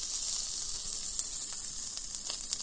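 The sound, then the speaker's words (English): A pepper-seasoned steak sizzles on a hot grill pan coated with olive oil, a loud, steady high-pitched hiss with a few sharp pops and crackles breaking through; no one speaks. “Now put a little olive oil on a hot grill pan or hot grill if you want to grill it outside. And toss that bastard right on there.”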